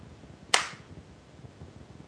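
A coin is flipped with the thumb during a heads-or-tails call: one sharp, bright click rings out once and fades quickly, leaving a quiet background of faint hiss.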